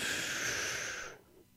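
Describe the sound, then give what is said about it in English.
A single deep breath drawn in, a breathy rush lasting just over a second before cutting off into near silence. “Relax your body. Keep your feet flat on the floor. And breathe good. One, two, three. Breathe in.”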